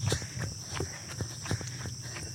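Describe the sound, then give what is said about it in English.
Footsteps of someone jogging up a hill, a quick, regular run of light thudding footfalls at a steady pace. “Ooh, running up a hill for your last stride is not fun.”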